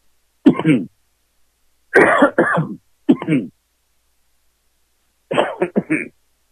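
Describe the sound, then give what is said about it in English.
A person coughing and clearing the throat: four short clusters of harsh, throaty bursts separated by silence, some clusters with several rapid hacks in a row. “Got a little cough going there.”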